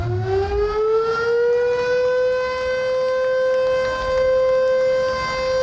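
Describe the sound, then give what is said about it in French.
A sugar factory siren sounds to mark the start of the sugar production campaign, a loud wailing tone that rises in pitch at the start and then holds a long steady note with strong overtones. “Cette sirène est un signe que la campagne d'usinage du sucre à la Sosumo a été lancée dès ce mercredi jusqu'à la fin du mois de décembre cette année.”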